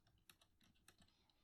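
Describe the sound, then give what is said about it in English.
Typing on a computer keyboard: a few irregular, crisp key clicks with small pauses between them, with no talking. “I got to type a thing real quick.”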